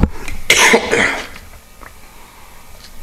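A man coughs after swallowing water the wrong way: a couple of harsh, raspy bursts, the strongest lasting about half a second, then the sound fades to near quiet.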